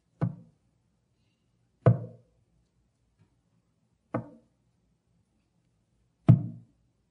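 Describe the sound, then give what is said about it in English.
Four firm knocks on a wooden pulpit, spaced about two seconds apart in a slow, even rhythm. Each is a dull, woody thud with a short decay, separated by silence. “You know what I did. Knocking on the pulpit.”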